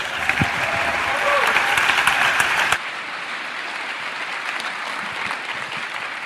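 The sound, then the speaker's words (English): Audience applause welcoming a speaker: dense, loud clapping from a crowd, then an abrupt drop partway through to a quieter, scattered patter of remaining claps. “please give a New Life Downtown warm welcome to Pete Greig”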